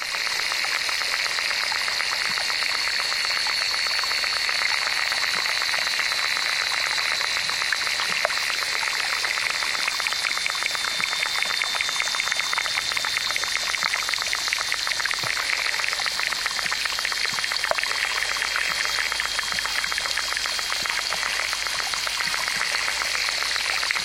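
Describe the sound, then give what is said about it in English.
Underwater insect sounds recorded by hydrophone in a small pond in Mora, New Mexico: a dense, continuous wash of ticking and crackling with a steady high buzzing band, with no voices. “Using an underwater recording device called a hydrophone, David Dunn collected this collage of insect sounds from a small pond in Mora, New Mexico.”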